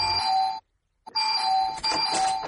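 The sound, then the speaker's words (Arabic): An apartment doorbell on a fourth-floor landing rings with bright electronic chime tones: one ring, a brief silent gap, then a longer second ring. “اضربي الجرس”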